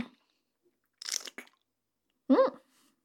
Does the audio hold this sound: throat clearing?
no